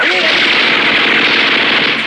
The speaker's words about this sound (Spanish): Las balas silban anunciando la muerte, haciendo impacto en los árboles, rebotando en las rocas, perdiéndose en el aire.